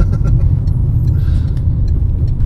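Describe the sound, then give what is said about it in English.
A diesel Citroen Berlingo van's engine drones with a loud, steady, low rumble and road noise throughout, with no clear change in pitch. “That was the sound there, all the Citroen Berlingo racking it up there.”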